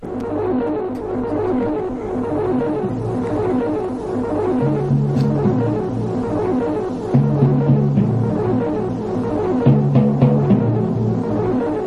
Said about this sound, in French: Peut-être pouvons-nous essayer de, capter quelque chose sur votre petit poste pour démarrer. On peut essayer en effet de capter quelque chose sur mon petit poste avec plaisir.